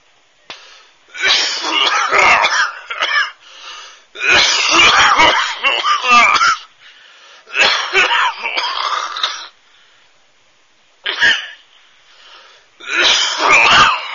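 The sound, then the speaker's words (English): A woman clearing her throat: several long, loud, raspy hacking bursts with a wheezy, strained edge, broken by short pauses. “She's just clearing her throat.”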